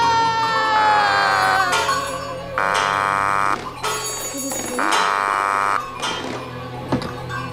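Telephone ringing signals sent over the wires: three steady, buzzy ring bursts of about a second each, separated by regular pauses, over a low background hum.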